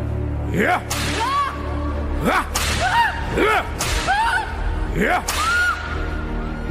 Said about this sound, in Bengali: স্ত্রীকে চাবুক দিয়ে মেরে ক্ষতবিক্ষত করেও ক্ষান্ত দিলেন না